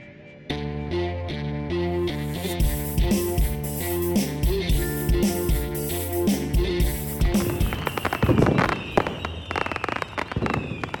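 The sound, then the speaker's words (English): Fireworks explode for the Fourth of July: many crackling, booming bursts burst out over loud music in the later part, after a steady musical opening. “Do y'all hear that? That's the sound of fireworks, baby, because it's the 4th of July.”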